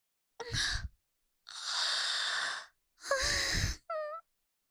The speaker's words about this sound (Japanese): あ、あくびうつった。